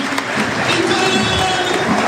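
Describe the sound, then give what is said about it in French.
Stadium crowd applauding a young Laval footballer as he is substituted at Le Basser, heard as a broad, steady wash of clapping and crowd noise. “Très applaudi aussi par le public de Le Basser et c'est mérité, ouais, mérite, pour Mathis Oudéyé que l'on reverra certainement l'année prochaine sous le maillot tango. Très très applaudi.”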